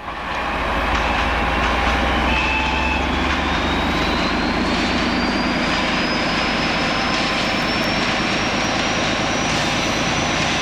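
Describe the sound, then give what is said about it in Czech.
A Czech class 754 'brejlovec' diesel locomotive passes a level crossing. Its loud, sustained engine roar fills the whole stretch, and a thin whine climbs gradually in pitch above it. “No je to brejlovec. Stál 2 hodiny v mlze u přejezdu”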